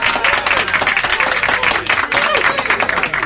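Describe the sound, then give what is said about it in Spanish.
Studio audience applause at the close of a show, a loud, dense and continuous wash of many hands clapping, with crowd voices mixed in. “Aplausos cerrados.”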